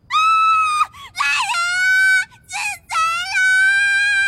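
A young girl screams in the dark of night: a few long, shrill, high-pitched shrieks, loud and piercing, broken by short gaps, with no other voices.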